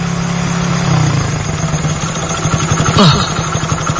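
A motorcycle engine strains under load as the throttle is held open, feeling sluggish while the fuel runs low. It makes a steady low drone that breaks into a pulsing firing rhythm in the second half, with a brief surge near the end.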